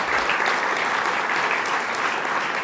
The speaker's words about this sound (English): they deserve a real round of applause